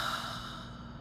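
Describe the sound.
A single slow, deep breath during a guided breathing exercise, soft and airy, fading gradually toward the end.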